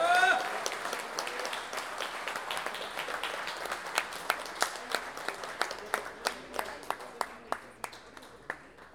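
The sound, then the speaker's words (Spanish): Audience applause for payadores at a national improvised-verse duel celebration. A dense wash of clapping gradually thins into sharper, evenly spaced claps that stand out toward the end. “Vamos con ese aplauso para los payadores.”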